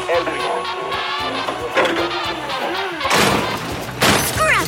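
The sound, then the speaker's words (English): Car crusher flattening a rusty 1960s limousine: loud, sustained grinding and crashing, with a few heavier smashing bursts toward the end. “There it goes! Two rounds in the crusher and it'll be as flat as planet Earth before we discovered it”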